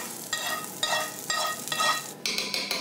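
Roasted onions with parsley are stirred into meat sizzling in a pan, a quiet frying hiss broken by a few scraping stirs of a utensil at a fairly steady rhythm.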